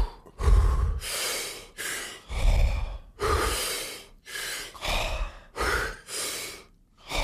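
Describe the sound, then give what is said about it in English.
Deep breathing exercise with forceful inhales and exhales, many long, loud airy breaths in an uneven rhythm, each separated by short pauses, with no talk over them. “you fill from the lobes of the lung to the apex of the lung, and then you exhale and just relax.”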